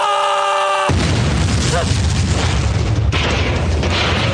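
A bomb explosion effect plays from a soundboard. A brief steady tone gives way to an abrupt, loud blast with a long rumbling tail, and a second surge of noise hits near the end.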